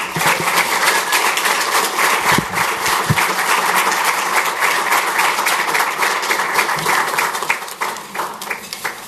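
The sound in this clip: Warm applause greets a guest speaker at a City Club event. Many hands clap in a continuous, crackling patter with a few sharper individual claps standing out, sustained evenly from start to finish.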